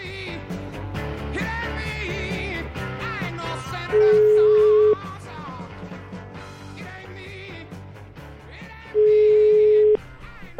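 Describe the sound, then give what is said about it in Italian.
Telephone line tone for a call: two long, flat, mid-pitched tones, each lasting about a second and several seconds apart. They stand clearly above a busy, continuous background of other sound. “È che io farei una telefonatina a Corleone”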